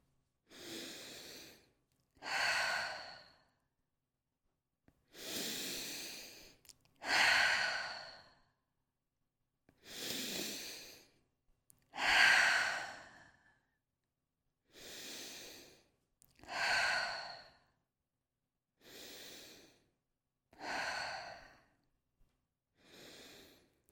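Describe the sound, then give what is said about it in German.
Deep breathing in and out: a slow series of long, airy inhales and exhales, each followed by a quiet pause, with no speech. “Und jetzt atme 6-mal tief ein und aus.”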